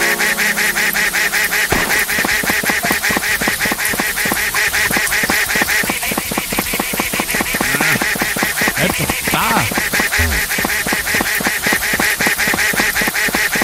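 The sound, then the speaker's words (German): A video-game duck quacks over and over in pouring rain, the calls coming in a dense, rapid stream with a steady wash of rain noise beneath, loud throughout. “wenn sie höher zu hören ist und der Ton höher wird von dieser Ente, dann ist sie zu weit weg.”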